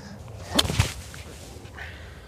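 A golf swing with a seven iron in warm weather with a tailwind gives a faint quick swish and sharp strike, two close transients, then quiet outdoor background.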